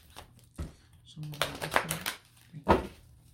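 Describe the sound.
Slippery tarot cards being shuffled in a few soft riffling, crinkly bursts, with a voice briefly heard among them.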